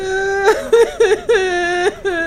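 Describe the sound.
A woman crying: broken, high-pitched sobbing bursts with wavering, bending pitch, coming in several short uneven gasps and wails.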